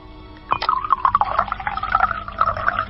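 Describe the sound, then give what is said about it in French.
Sacred water is poured into a calabash, a steady trickling, gurgling stream that begins after a short quiet moment and continues to the end at moderate loudness. “Je vais mettre l'eau dans cette calebasse. Je verse l'eau sacrée.”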